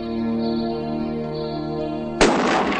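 A single shotgun blast fired while hunting a rabbit in the countryside bursts out sharply over a steady music bed, followed by a brief noisy decay.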